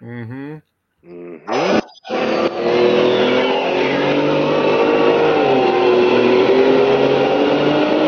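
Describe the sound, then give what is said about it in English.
A Detroit diesel truck engine with four turbochargers revs hard, building into a loud, sustained roar with a whistling turbo whine that slowly falls in pitch, after a brief voice at the start. “Yeah, there's one of them. Yep. Four turbos on a Detroit.”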